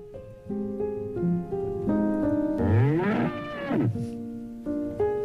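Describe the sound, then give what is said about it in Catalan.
A cow lets out a single drawn-out moo that swells and then fades, sounding over a steady backdrop of electronic musical notes that continue before and after it. “Hi ha una vaca a l'escala?”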